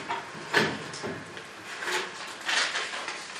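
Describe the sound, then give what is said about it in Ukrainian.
A transparent ballot box being opened: a few soft clicks, knocks and scraping rustles at low level, spaced out over a few seconds with quiet gaps between them. “Прозора скринька із нашими голосами. Зараз я її відкриваю.”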